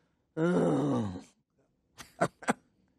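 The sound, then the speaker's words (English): A person groans in one long, drawn-out voiced moan that sags slightly in pitch, followed after a pause by a few short, breathy grunts. “I think even that, according to what I'm reading, an uttering, a groaning, something I don't even really understand, still the Holy Spirit knows what's behind that”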